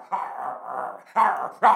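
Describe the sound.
A dog barks and growls in three bursts: a drawn-out first call, then two shorter, louder barks close together.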